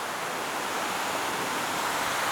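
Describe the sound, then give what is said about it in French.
Mountain waterfall cascades pour in a dense, steady, full-bodied rush of white water, loud and unbroken throughout, with no voices. “Ces cascades, cette force qui anime.”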